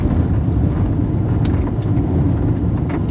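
A car driving on a dirt road makes a loud, steady, low rumble of engine and road noise, with a few brief, higher clicks and rattles on top.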